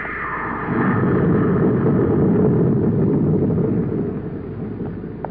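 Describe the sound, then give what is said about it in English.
Rocket engine blasting off, a dense, steady roaring rumble that swells after the first second, holds loud, then eases a little toward the end. “Clear that rocket blast.”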